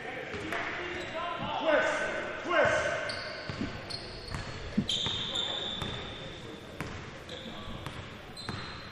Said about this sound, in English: Philip Moore with the left-hand dribble walks it across the timeline